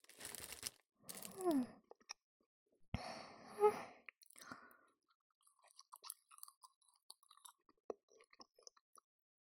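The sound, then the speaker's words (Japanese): Chewing melon bread: crisp, crunchy bites come in a few loud bursts early on, then give way to quieter, scattered smacking clicks and soft mouth sounds. “さーて、こいつの味は。いただきます。 はい。私はメロンパン。”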